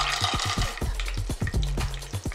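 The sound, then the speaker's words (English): Cashews, almonds and raisins roast in ghee in a pan: many short scraping stirs and crackles over a soft, steady frying sizzle, with no talk. “We are going to roast them. Our nuts are slightly golden now.”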